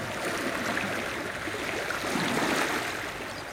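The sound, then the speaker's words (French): Sea waves wash against rocks in a continuous rushing roar that swells slightly midway, with no voices. “Quand la mer est là, et quand elle est forte, là on est dans une ambiance même. Et lorsque la vague joue avec les rochers,”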